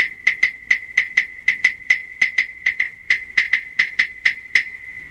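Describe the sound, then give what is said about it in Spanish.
Claves are struck together in many sharp, dry wooden clicks, each with a bright, high tonal knock, beaten in a steady, lively rhythm with short gaps between hits. “Así suenan las claves.”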